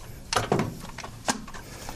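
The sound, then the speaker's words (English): A bump stock on a rifle being locked back into position, a few short, faint mechanical clicks and clunks, with two close together near the start and one more a moment later. “This is a bump stock. I'm trying to get it to lock back into the position.”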